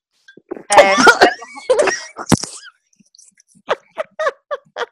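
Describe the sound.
Coughing caught in the back of the throat: a loud cluster of harsh coughs, then several softer, short bursts spaced apart.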